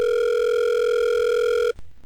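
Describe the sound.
A telephone ringback tone sounds while a call waits to be answered: a single steady, mid-pitched electronic tone holds for nearly two seconds, then cuts off abruptly into faint line noise.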